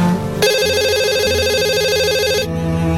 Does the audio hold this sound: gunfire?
no